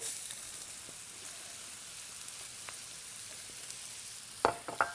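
Onions frying with toasted spices in a pan give a steady, soft sizzling hiss, with a few sharper clicks and scrapes near the end.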